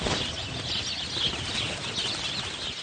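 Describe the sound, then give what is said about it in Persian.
Wings of a flock of sparrows flapping as they take off together, a dense, continuous fluttering whir with a bright hissy edge, steady in loudness. “یه دسته گنجیشگ پرواز میکنن، یه دسته دیگه توی تور اسیر میشن.”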